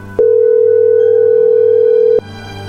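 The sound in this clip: A telephone tone sounds at one steady pitch for about two seconds, loud and unbroken, starting and stopping abruptly.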